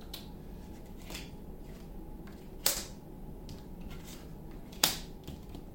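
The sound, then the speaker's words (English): Tarot cards being separated by hand make a few sharp, dry snaps and soft papery rustles over a low steady hum, with two crisp clicks standing out clearly above the rest. “Two cards came out together. This is interesting.”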